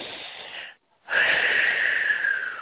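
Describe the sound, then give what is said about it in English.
Deep breathing in through the nose and out through the mouth during a guided breathing exercise: a softer airy breath, a brief silence, then a longer, louder, rushing breath that holds steady to the end. “take 3 big breaths through your nose and out through your mouth, and as you're doing that, you're releasing what no longer serves you.”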